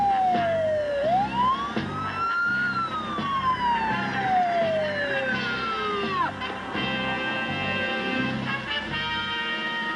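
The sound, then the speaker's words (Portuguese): A police car siren in a dubbed film wails, sweeping up and down in long loud arcs over a low, pulsing engine rumble, with no talk. “Papai, a polícia tá vindo atrás da gente.”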